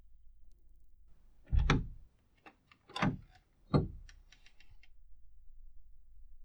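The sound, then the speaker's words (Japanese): A cage door is opened in three rattling, metallic bursts spread over a few seconds, with faint small clicks in between. “約束でございます。檻を開けて差し上げますね。”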